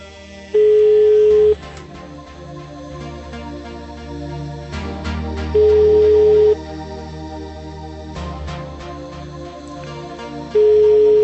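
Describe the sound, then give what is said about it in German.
Telephone line tone from a call that fails to connect: three steady, mid-pitched tone bursts about a second long, spaced several seconds apart, the last one cut off, over a constant background bed. “ich wähle nochmal neu an. Einen kurzen Moment. Hallo? Ja, wer ist da? Ähm, kurzen Moment, die Verbindung kommt gerade nicht zustande.”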